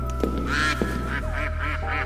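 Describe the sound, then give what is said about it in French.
Mallard duck quacking in a series of short, bright, raspy quacks that come in quick succession over a steady low hum, with no voices. “apportez-moi un col vert.”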